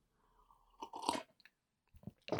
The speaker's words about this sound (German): Ich nutze diese Werbeunterbrechung ganz kurz, um einen Schluck Kaffee zu nehmen.